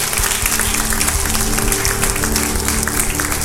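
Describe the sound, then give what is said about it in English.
Applause from a church audience at a morning service: dense, steady clapping that holds at an even level throughout, with no distinct voices above it. “Let's give a big hand also to our internet congregation as well, okay?”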